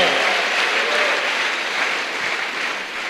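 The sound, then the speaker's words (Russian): Audience applause at a Christian conference worship gathering, a short burst of dense, even clapping that holds at a steady moderate level and eases slightly toward the end. “Давайте дадим Иисусу большие аплодисменты.”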